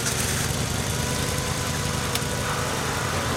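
Wheel loader engine idling: a steady, unbroken low diesel rumble with a vibrating, knocking texture that holds at the same loudness throughout, with no voices.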